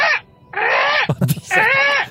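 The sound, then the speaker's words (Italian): A human voice imitates a tired seagull with three drawn-out, wailing cries, the middle gap filled by a few short, rough breathy bursts. “Cos'è mai? Il corvo? No, non lo so, forse un gabbiano. Il gabbiano stanco. Stanco. Ah, è il gabbiano ma stanco.”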